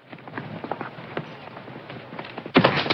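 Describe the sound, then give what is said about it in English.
Soft hoof thuds as a rider mounts and sets off into the wilderness, falling in a loose, irregular pattern and turning into a sudden, much louder noisy burst near the end. “mounts his horse and sets off into the wilderness.”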